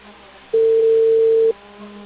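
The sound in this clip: Ringback tone of an unanswered telephone call: a single steady, mid-pitched beep lasting about a second, sounding alone against quiet line noise.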